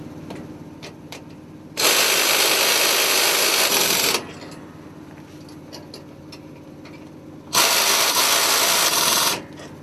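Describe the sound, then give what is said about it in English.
A ratchet mechanism winds up springs on a coach's front wheel: two loud, sustained bursts of dense mechanical whirring, each about two seconds long, separated by quieter ticks and clicks. “We'll run the springs up until the eye hits the bar. Both springs are the same length, so that'll stretch each spring equally by running it up all the way to the bar.”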